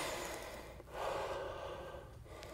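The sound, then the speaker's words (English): A deep breath taken to calm down from a stressed state: one long, noisy airy inhale and exhale that swells midway and then eases, heard alone with no talking. “take a few deep breaths, take deep, deep breaths because you can't be in a stressful state and breathe deeply”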